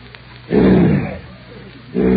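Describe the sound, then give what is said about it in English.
A man imitates a lion's roar with two loud, rough, growling bursts separated by a short lull, the second cut off at the end. “A lion. Quiet, folks. One lion!”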